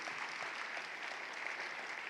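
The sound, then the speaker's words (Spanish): Applause from a church audience, a dense, continuous patter of many hands clapping at an even level from start to finish, with no voices standing out. “Vamos a dar un aplauso al Señor porque vamos a terminar con victoria.”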